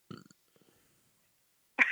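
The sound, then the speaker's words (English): A short, low, gurgling belch from a man who says he burps a lot after eating many hot dogs, a brief rumble near the start followed by quiet. “Are you belching? Yes. That's the other cool thing is that I burp a lot.”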